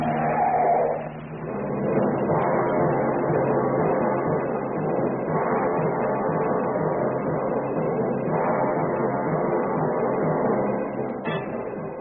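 A car accelerates along a street toward the docks, its engine a steady, loud roar that holds for about twelve seconds after a brief dip near the start.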